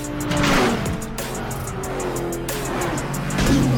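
A racing car engine during a race: a continuous loud roar that holds steady throughout, with slight swells in level.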